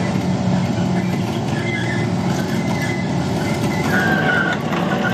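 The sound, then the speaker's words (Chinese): Engine of a heavy amphibious armored vehicle weighing tens of tons, with the throttle eased gently while it tows another armored vehicle by its front tow points, a loud, steady, low rumble with a faint whine rising near the end. “是两个数十吨重的钢铁巨兽的连接呀、啊！请问驾驶员，这个油门踩的真的是非常的轻柔。”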